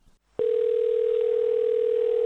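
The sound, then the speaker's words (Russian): A steady telephone dial tone heard while placing a call, starting after a short quiet moment and holding one unbroken pitch, loud and alone, to the end. “Я попытался их подытожить и позвонил в Бостон. Правда, там мне ответил автоответчик”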